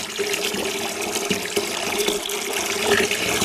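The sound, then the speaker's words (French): Water pours steadily into a basin, a continuous splashing hiss with small gurgles and bubbling throughout, with no voices. “Tiens, on va par exemple remplir une bassine d'eau.”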